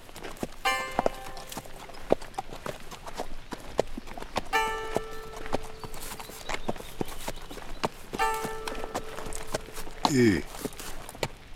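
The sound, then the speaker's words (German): Hooves of a ridden horse clip-clop on in drizzle under a heavy sky, many steady, moderately loud hoofbeats in an even walking rhythm throughout. “Richter Dee hielt sein Pferd an und warf einen sorgenvollen Blick zum bleiernen Himmel”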